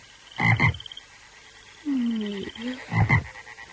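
Frogs croak in a few rasping, pulsing bursts, with a lower droning croak between them. No voices are heard over the calls.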